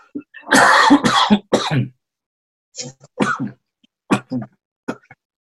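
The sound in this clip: A person with an itchy throat clears it and coughs, starting with one long rasping bout followed by several short, sharp coughs separated by pauses of silence.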